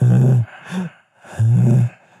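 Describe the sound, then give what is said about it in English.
Heavy, labored breathing from a fat man, wheezy and rasping: two loud, long breaths separated by a shorter, softer one and a brief pause. “he's got making, a wheeze in there? Yeah, he's making sound”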